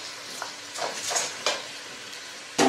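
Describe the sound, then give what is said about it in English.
Rice being stirred in a pan, a few soft scraping strokes over a light sizzling hiss, ending with one louder scrape or clatter. “And we mix. We mix nicely everything together.”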